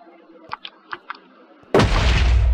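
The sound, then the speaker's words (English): A creeper explodes in the video game Minecraft. A few faint clicks come first, then a sudden loud blast that stays as a broad, roaring rumble to the end. “Oh, the torches break when the creeper explodes. I don't know. Creeper explodes, and then the thing gets broken.”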